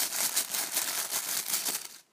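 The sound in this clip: A plastic tablecloth that shimmers turquoise, yellow or pink rustles and crinkles in a continuous, fairly quiet stream of crisp crackles that stops briefly near the end.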